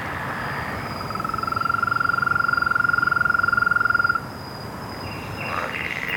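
Several frogs trilling. One loud, rapid, evenly pulsed trill at a steady high pitch lasts about three seconds and stops abruptly, over a faint thin higher tone and a softer call near the end.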